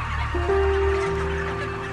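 A chicken with respiratory distress on a factory farm, its breathing a steady, raspy whistling tone that holds for over a second amid constant barn din and clucking from other fowl.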